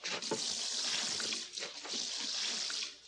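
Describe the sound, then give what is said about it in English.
Liquid is poured into a cooking pot to cover the ingredients, a continuous hissing, splashing gush lasting about three seconds. “Now we add enough liquid to cover.”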